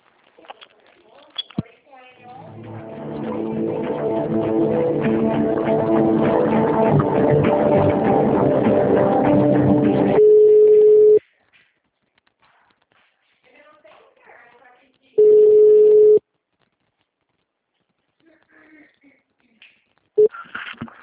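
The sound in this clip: Telephone line sounds while a call is transferred: a long stretch of muffled, band-limited noise, then two steady single-pitch tones about a second each with quiet between, and faint voice fragments at the edges.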